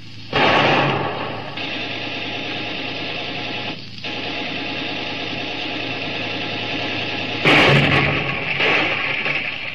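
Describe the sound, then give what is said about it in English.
A ship's deck gun fires at a fleeing boat, with a couple of heavy booming blasts cutting through a steady droning motor hum. “Put a shot across her bow, Lieutenant Murray. Aye, sir. One across the bow. Fire! They're making a run for it. Fire at will.”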